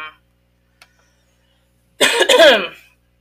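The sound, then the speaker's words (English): One rough, harsh cough bursts out after near silence, from a person whose lost voice is slowly coming back. A faint click comes before it. “let me clarify, the coughing is just, I lost my voice and it's just slowly still trying to come back”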